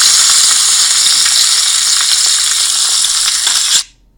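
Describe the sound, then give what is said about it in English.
Sausages and bacon sizzle in a steaming hot pan with a steady, loud, crackling hiss and small pops. The frying stops abruptly just before the end. “and some sausages there into the steaming hot pan. Yep, let's just cook that a little bit.”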